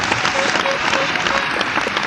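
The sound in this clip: Loud, dense applause from a concert audience for a 1970s idol trio, continuous clapping with crowd noise and faint voices mixed in, sustained throughout.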